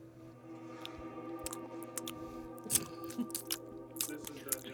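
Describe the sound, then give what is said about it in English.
Crunchy food chewed right into a microphone gives many sharp, irregular crunches and bites, faint overall, over a low tonal hum. “Make sure you crunch those right into my microphone.”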